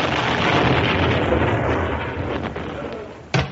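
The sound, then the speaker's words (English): A comic explosion effect bursts in at full loudness as a deep, roaring boom, then slowly fades to a rumble. A sharp crack cuts in just before the end. “Here is a news flash. Tony Blackburn exploded today.”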